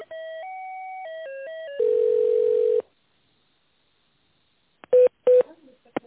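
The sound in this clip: Telephone line tones while a call is being transferred: a run of steady stepped beeps ends in a longer buzzy tone, then a silence, then two short bright ring pulses, with no talking.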